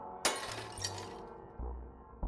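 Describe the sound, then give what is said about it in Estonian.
A cheap stained-glass window shatters from an elbow strike: a sharp crash of breaking glass, then a second smaller burst of tinkling shards, and a few low thuds as the sound dies away, all fairly quiet. “valutu küünarnuki löök odavale vitraažaknale eemaldas selle takistuse.”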